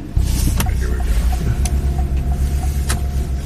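A car drives away from a police station, its engine a steady low rumble that holds level throughout, with a few brief, sharp clicks over it.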